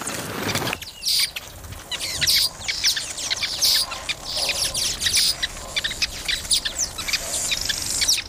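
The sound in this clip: Many short, high chirps from a male weaver bird busy among nests, repeating in quick irregular bursts over a constant rustling background.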